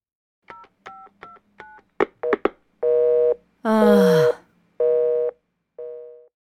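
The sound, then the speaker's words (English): A telephone busy signal: a quick run of keypad dialing tones, then four evenly spaced, steady mid-pitched beeps in a regular on-off rhythm, the last one fading out. “The line's busy.”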